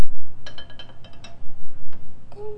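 A spoon stirring milk in a cup gives a run of light, bright clinks at an uneven pace, loud and clear with no talk over them.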